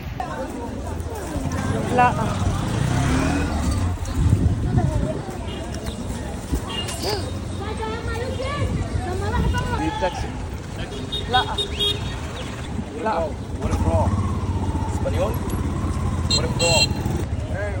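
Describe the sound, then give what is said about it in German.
A tuk-tuk's engine hums and rattles as it drives alongside someone walking on a street. The engine stays steady under people talking and general street noise throughout. “Der fährt mit seinem scheiß Tuk-Tuk hier die ganze Zeit neben mir. Der hört gar nicht auf.”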